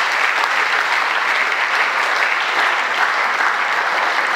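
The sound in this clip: A steady, full round of applause at a school evening as a speaker is welcomed to the stage. The clapping stays dense and even throughout.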